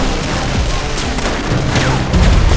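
Heavy gunfire as a barrage of bullets is fired at masked men, a dense, continuous crackle of shots and thuds with no break, getting louder toward the end.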